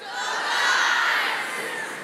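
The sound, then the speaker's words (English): A group of guys cheering in unison on a count: one loud, sustained crowd shout that swells toward the middle and eases slightly as it carries on to the end. “It feels good to be cheered for, doesn't it, girls? Yeah. Maybe you could return a go guys for that. 1, 2, 3.”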